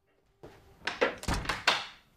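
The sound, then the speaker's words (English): A drawing room door is shut, giving a quiet run of several soft thuds and knocks after near silence. “then shuts the door.”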